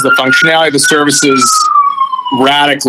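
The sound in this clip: A siren sounds behind a person talking, a steady high wailing tone that slides slowly downward in pitch, partly masked by the speech.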